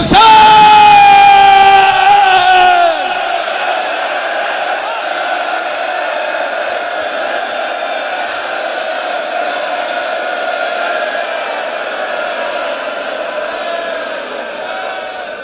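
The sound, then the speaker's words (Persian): A crowd of men and women shouts together at a religious gathering: a loud opening burst of raised voices settles into a sustained, steady roar that continues for about fifteen seconds, fading only slightly toward the end. “زن و مرد دستا بیاد بالا، بیرونیا همه میخوام فریاد بزنن”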